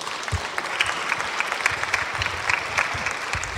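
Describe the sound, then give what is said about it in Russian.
An audience applauding inside an evangelical church: a dense, continuous patter of many hands clapping at a moderate, even level. “Да, давайте похлопаем.”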